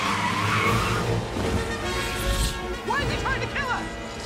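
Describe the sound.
A car braking hard with its tires skidding during a chase: a loud, rough vehicle roar, then a few sharp, high squealing tire chirps near the end.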